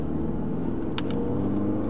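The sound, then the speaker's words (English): Steady road rumble of a car driving across Las Vegas, Nevada, picked up by a hidden recording device on the driver, a continuous low drone throughout with no talk. “You can hear the road noise on the device.”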